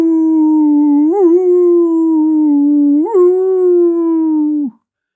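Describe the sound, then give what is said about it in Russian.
A dog howling in one long, loud, sustained tone that wavers briefly twice, then sags and breaks off abruptly at the end, with no other sounds. “Шарик, а Шарик, чего ты скулишь, бедняжка, а? Кто тебя обидел?”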